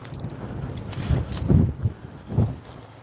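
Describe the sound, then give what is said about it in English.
Strong wind buffeting the microphone: a low, rumbling roar that swells in a few heavy gusts over steady blustery noise, with no voices. “Wow, I'm having to lean into the wind. It's blowing so strongly.”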